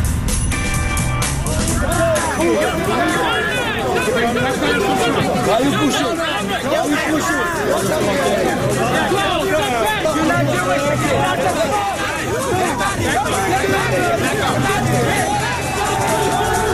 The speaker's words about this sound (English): It's a riot in Brooklyn. There's a riot in Brooklyn.